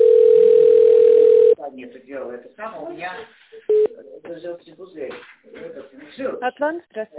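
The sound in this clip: Steady telephone dial tone holds alone for about a second and a half, then gives way to voiced, speech-like sounds broken by one short, clear beep, with a soft hiss underneath.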